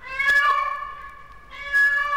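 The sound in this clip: A radio actor imitating a cat with two drawn-out, nasal meows in a radio dramatization of the classic tale La Ratita: a wavering first mew, a brief dip, then a second meow swelling back in.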